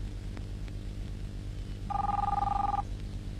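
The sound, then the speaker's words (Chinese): A telephone rings once, a warbling two-tone electronic burst lasting just under a second over a steady low hum. “你不想接电话？”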